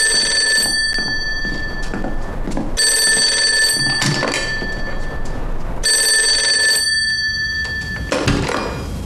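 A telephone rings with a loud electric bell that sounds in repeated bursts separated by short silences, with no talking.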